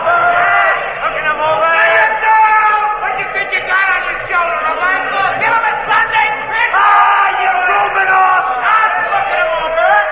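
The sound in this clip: A baseball crowd fills the bleachers with a dense, steady roar of many overlapping voices: shouts and chatter blend into a loud, continuous wash with no pause.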